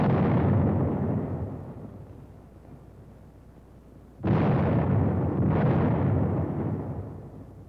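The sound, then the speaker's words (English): A squad fires a 37-millimeter anti-tank gun: heavy booming shots, each with a long rumbling roar that slowly fades, the last two blasts following close together. “A squad firing the 37-millimeter anti-tank gun.”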